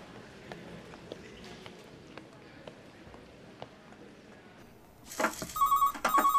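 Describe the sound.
A telephone rings as a call is placed to a workplace. A loud, high, warbling ring bursts in near the end after a quiet stretch of low background noise with faint ticks.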